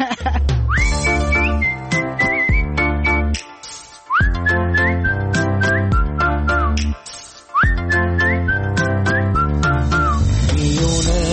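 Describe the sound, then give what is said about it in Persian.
A person whistles a bright melody with sliding notes over musical accompaniment, the tune returning in several similar phrases separated by brief gaps. “سوت بزن حتی”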